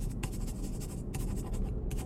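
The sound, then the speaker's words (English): Pen scratching across torn-out notebook paper, a steady run of short rasping writing strokes with brief pauses between them, heard alone without talk. “On one of them, write your telephone number and give it to me.”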